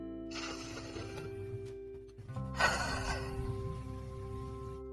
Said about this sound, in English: we'll end with a deep breath.